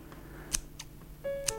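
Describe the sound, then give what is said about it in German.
Hairdresser's scissors snipping a customer's hair, a few crisp, faint metallic clicks spaced apart in an otherwise quiet moment. “Ich schneide Ihre Haare.”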